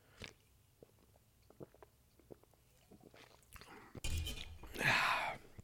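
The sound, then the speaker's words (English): Drinking a Pepsi: faint mouth clicks and small sips, then two louder breathy, fizzy bursts near the end. “I'm going to take this quick drink.”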